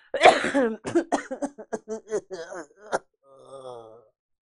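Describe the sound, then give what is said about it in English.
Harsh, hoarse coughing from a person with a bad cough comes in a rapid series of many loud bursts, then trails into a drawn-out groaning moan. “This cough is horrible, and I've really been trying to keep it all together, but goddamn.”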